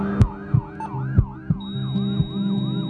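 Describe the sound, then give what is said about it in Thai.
Wailing siren of an emergency rescue ambulance, rapid rising-and-falling sweeps that repeat in quick cycles, joined partway through by a steady high tone, with low thumps recurring at a regular beat. “โปรดให้ทางรถกู้ชีพฉุกเฉินทุกเส้นทางเพื่อช่วย1ชีวิตให้รอดพ้น”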